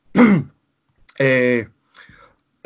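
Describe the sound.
A man with a dry throat, who has been a heavy smoker, clears his throat in a few harsh rasping bursts separated by short silences. One burst is voiced and hum-like, and a fainter one follows it.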